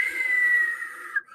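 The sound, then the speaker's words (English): A voice imitates the whistle of an incoming bomb or missile: one sustained, high, steady whistle held for about a second, dipping slightly in pitch just before it ends. “you hear a whistle in a movie for a couple of seconds before it hits.”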